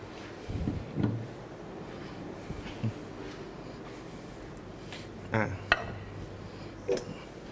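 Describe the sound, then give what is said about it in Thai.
Light clinks and knocks of crockery as a serving plate is picked up during a Thai salad cooking demonstration, a few brief taps scattered under steady talk. “ขออนุญาตหยิบจานที่จะใช้เสิร์ฟก่อนนะครับ”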